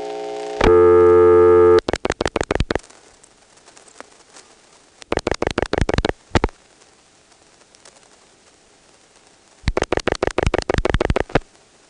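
A Stromberg telephone exchange sounds its ring and supervision test: a loud steady tone holds for about a second, followed by three bursts of rapidly pulsed, buzzy ringing separated by quiet gaps.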